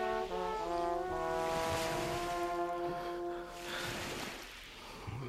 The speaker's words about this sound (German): Das Meer habe ich mir anders vorgestellt.